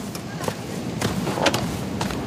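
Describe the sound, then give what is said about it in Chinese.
Metal slams and thuds as the engine hood of a broken-down car is opened in a remote spot, a few sharp knocks over a steady hiss. “修呗，把工具箱给我。 行。 把引擎盖也打开。”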